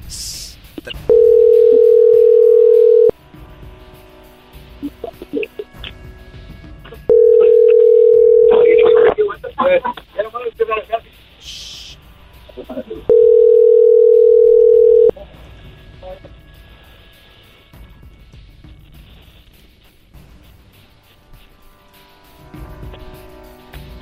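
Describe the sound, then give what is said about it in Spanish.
A telephone call rings out unanswered during a phone game: three long, steady ringback tones with gaps of a few seconds between them, and people talking in the pauses. “Vamos a marcar otro lado, otro lado, otro lado. No contestaron ahí.”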